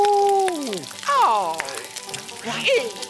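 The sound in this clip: Breaded skunk tail sizzles and crackles in hot oil, a steady frying hiss with a voice calling out over it.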